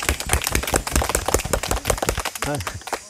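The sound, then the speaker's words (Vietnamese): Hand clapping from a group of listeners at a teacher's talk: many quick, overlapping claps with a voice speaking over them. “Vỗ tay.”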